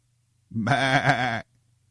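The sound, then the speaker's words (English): A person imitates a sheep's bleat, giving a single nasal, wavering "baa" of about one second that cuts off cleanly into silence. “This is what we've been herded into, these pens of sheeple. Bah,”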